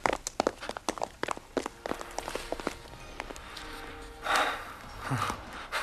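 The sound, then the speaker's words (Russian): Footsteps of a group of young naval cadets climbing stairs: a quick run of many sharp, uneven steps over the first few seconds, then quieter shuffling with a brief breathy sound. “Гардемарины поднимаются наверх.”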